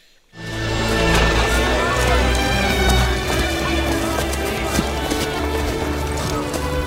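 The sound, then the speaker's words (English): Horse hooves clip-clopping at a trot, set in a loud, dense mix with music filling the background throughout. “So into this situation trots William Wallace.”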